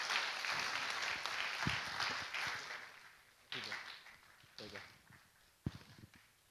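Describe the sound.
An audience applauds to welcome a speaker at a church service. The clapping is full and steady at first, then thins out and fades, leaving a few scattered claps and soft footfalls.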